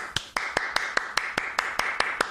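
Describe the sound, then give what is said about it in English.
One person clapping hands alone, a steady, evenly spaced run of about a dozen sharp, bright claps, with no voices. “I'm just going to keep applauding just me. I'm telling you, it's that good. Seriously, you should try it. It's amazing. All right, I'll stop applauding.”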